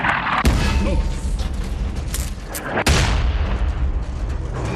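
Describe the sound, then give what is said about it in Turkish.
Artillery bombardment booms out in two sharp, loud blasts, the first near the start and the second past the midpoint, over a continuous rumbling, noisy background. “Bombardıman.”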